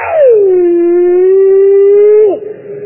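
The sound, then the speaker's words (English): A voice imitating a Plott hound bear dog howling: one long, loud, sustained howl that slides down at the start, holds a steady tone, then breaks off with a sharp drop near the end. “I had out the back of that dormitory, three old plot hounds, bear dogs. And friend, about that time, one of them old hounds said,”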